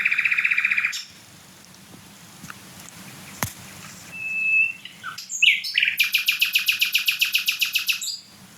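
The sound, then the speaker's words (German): A small songbird, smaller than a blackbird, sings loudly: a sustained high whistled phrase, then a few brief notes, then a fast run of many sharp repeated notes, over a faint low background hum. “Und ich meine, der Vogel ist kleiner als eine Amsel. Das ist, auch wenn jetzt kein anderer Vogel singt und so weiter, mega laut trotzdem.”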